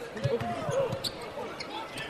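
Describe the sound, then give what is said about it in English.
A basketball is dribbled high with the right hand on a college game court, with BYU playing. The ball makes a quick, regular series of low thumps, and a few brief sneaker squeaks sound alongside. “High dribble with the right hand”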